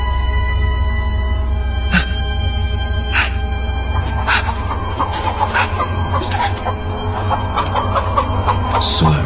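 A chicken clucks in a series of short, repeated calls over a steady low hum, the clucks coming at irregular intervals and standing out clearly against the constant background drone.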